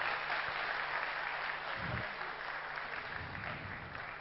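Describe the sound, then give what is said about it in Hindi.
Audience applause welcoming a speaker at a Brahma Kumaris spiritual gathering: steady, dense clapping that holds at an even, fairly soft level throughout. “हम ऐसे विशेष वक्ता के लिए फिर से एक जोरदार तालियों के साथ में”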